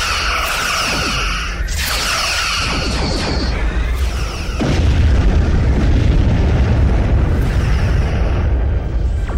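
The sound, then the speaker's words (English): Explosion of an asteroid facility under starship weapons fire in a science-fiction space battle: crackling bursts and sharp impacts give way midway to a loud, sustained, low rumbling roar, with no voices. “Our asteroid, it's been obliterated.”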